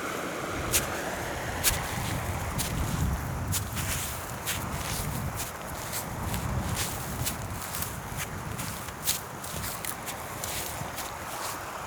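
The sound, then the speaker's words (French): Footsteps walk across alpine grassland, many soft, regular steps crunching and swishing in an even rhythm over a low, breezy background. “Je marche sur des pelouses alpines.”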